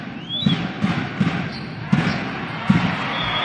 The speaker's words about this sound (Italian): Ace, mamma mia, fortunatissimo. Il pallone va a incocciare il nastro, poi cade delicatamente nella zona dove nessuno dei giocatori di Siena ci può arrivare con efficacia.